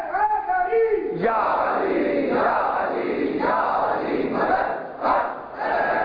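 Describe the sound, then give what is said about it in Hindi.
A crowd of children and young people chant slogans at a rally. A single voice is heard briefly at the start, then the massed voices shout loudly in rhythmic, surging swells that rise and dip repeatedly. “ये बच्चे और जवान जब नारे लगाते हैं मुझे बड़ा हौसला मिलता है।”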